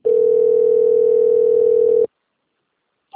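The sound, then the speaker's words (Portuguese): Ringback tone of an outgoing telephone call: one loud, steady single-pitched beep lasting about two seconds, then silence before the next beep begins. “tá ligando aqui, peraí.”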